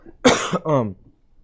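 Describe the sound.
Coughing from someone who has had something go down the wrong pipe: two quick, harsh coughs, the second more throaty and voiced, and then quiet.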